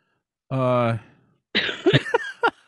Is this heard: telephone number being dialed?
no

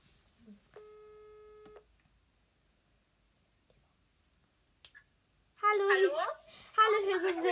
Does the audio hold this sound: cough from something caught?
no

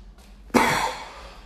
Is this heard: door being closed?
no

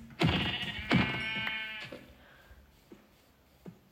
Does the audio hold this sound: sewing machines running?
no

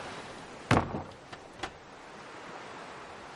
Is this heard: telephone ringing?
no

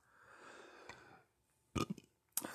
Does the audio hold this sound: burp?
yes

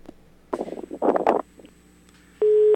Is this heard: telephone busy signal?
yes

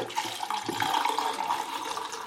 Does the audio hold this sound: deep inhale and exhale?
no

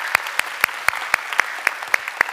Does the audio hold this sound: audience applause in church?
yes

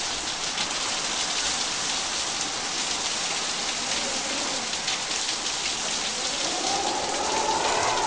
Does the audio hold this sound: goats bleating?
no

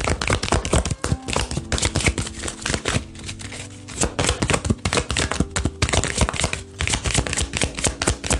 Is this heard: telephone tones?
no

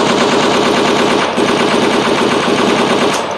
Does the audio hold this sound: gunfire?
yes

